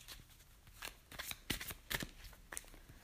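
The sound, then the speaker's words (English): A romance tarot card is drawn from the deck, making quiet papery riffles and a few soft snapping flicks of card stock. “For you guys who this reading is for love, let me pull a romance card out for you.”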